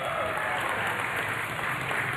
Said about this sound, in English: Yeah, okay, not that much applause.